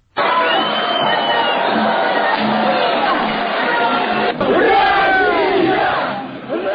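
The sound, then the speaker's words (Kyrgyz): About 300 pro-Russian protesters storm a regional prosecutor's office, chanting "Russia" in a loud, continuous roar of massed shouting voices. The chant barely dips from the opening to near the end, with a brief break partway through. “Алар Орусия, Орусия деп чабуул уран таштап, прокуратура имаратын курчап турган коопсуздук кызматкерлерин ташпаран калышты.”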